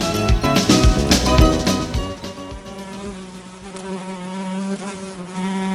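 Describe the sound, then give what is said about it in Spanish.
A mosquito buzzes with a loud, steady drone made of stacked tones. It is busiest and most uneven in the first two seconds, then settles into a smoother, continuous whine with no voices. “¡Quítamelo, quítamelo! Ya, tranquilízate, que ya se fue, solo era un mosquito.”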